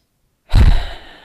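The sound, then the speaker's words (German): A single deep breath out, heavy and sigh-like, comes during a calming breathing exercise. It starts abruptly after a short silence, is loud at first and then tapers off softly. “atme ein paar Mal tief ein und aus.”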